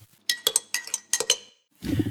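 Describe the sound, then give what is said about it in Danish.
A spoon clinks against a cup while stirring, a quick run of bright, ringing ceramic taps in an uneven rhythm, followed by a burst of low rumbling noise. “Skal vi lige dreje koppen? Nå ja. Vi rører lige koppen.”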